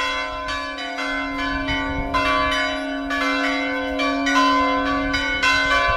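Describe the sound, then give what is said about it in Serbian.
A Serbian Orthodox church bell in Lovran, at a church built in the late 18th century, rings to call the faithful to the feast of the translation of Saint Nicholas's relics. Many steady, evenly repeated strikes ring out over a constant low hum. “ovako je pozivalo zvono Lovranskog srpskog pravoslavnog hrama vernike na praznovanje prenosa mošti u Svetog oca Nikolaja u Bari”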